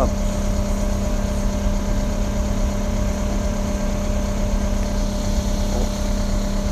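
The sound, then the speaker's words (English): A go-kart engine drones steadily as it rides around the city, a constant buzzing hum with a low tonal whine that holds an even, loud level throughout. “sorry, just riding my go-kart around the city”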